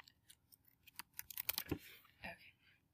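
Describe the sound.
Typing on a computer keyboard gives a short, uneven run of light clicking keystrokes. A voice briefly overlaps them.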